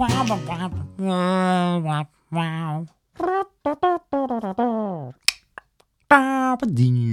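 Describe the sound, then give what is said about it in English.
A voice imitates a show's theme music at an Edinburgh comedy performance, singing a wordless melody in several sustained, wavering phrases separated by short pauses, with a couple of sharp clicks near the end. “That's my impression of the theme music. It's probably in a different key. I should have listened to it before.”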